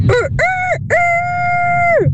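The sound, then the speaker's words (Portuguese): A person imitates a rooster crowing with the voice: three loud harmonic calls, a short opening note, a mid-length one, then a long sustained call that drops in pitch at the end. “o que eu sei imitar, que eu acho que sei, é um galo. Então cá vai.”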